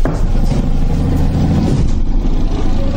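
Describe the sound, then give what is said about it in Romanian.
A car engine runs as the vehicle pulls away, a steady, dense low rumble with a hint of revving that holds at an even loudness throughout, with no voices over it. “Auzi? Pleacă automobilul.”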